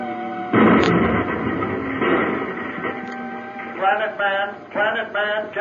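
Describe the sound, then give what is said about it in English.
Explosive pellets set off by a hand detonator inside a cavern burst with a sudden loud boom, followed by a long rumbling roar and a second surge. Voices then speak over the fading rumble. “I'll use a few explosive pellets from this hand detonator.”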